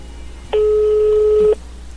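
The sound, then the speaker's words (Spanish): Ringback tone from an outgoing telephone call, a single steady electronic tone at one pitch lasting about a second, alone over faint background hiss. “vamos a enlazar la llamada, vamos a ver quién nos contesta en la otra línea. Ahí está llamando.”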